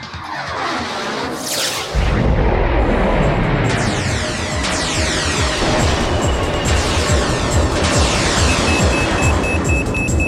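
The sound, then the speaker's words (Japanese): Spaceship mega particle beam cannon firing, a sci-fi effect: a loud, noisy roaring blast surges in after about two seconds and holds steady to the end, layered with sweeping whoosh-like textures. “うむ、メガ粒子田代砲発射。”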